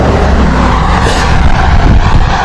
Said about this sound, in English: You can hear the traffic going by.